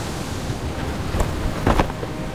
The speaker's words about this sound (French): j'eus l'impression, en prononçant ce mot, que les vagues dehors claquaient un peu plus fort.